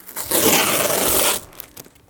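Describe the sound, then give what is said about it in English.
Packing tape tears away from a parcel holding artwork as it is unpacked. One loud, raspy rip lasts about a second, followed by faint crinkles and rustles. “So immediately you're seeing, like, you know, I've got some tape coming off here.”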